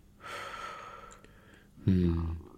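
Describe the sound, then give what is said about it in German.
Deep breathing during a medical examination: a long, breathy inhale, then a pause and a shorter, voiced, sigh-like exhale, both fairly soft. “Einatmen. Und ausatmen. Und nochmal einatmen. Und ausatmen.”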